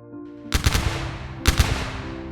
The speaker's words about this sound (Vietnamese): Sau khẩu lệnh của anh Hải, tiếng súng CKC vang lên. Từng loạt đạn được bắn ra